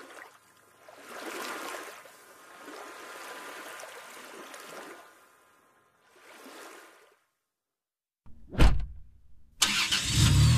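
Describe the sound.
A car drives back down out of the mountains in fall, its road and engine noise rising and fading in a few rushing swells. After a short silence, several abrupt loud bursts follow.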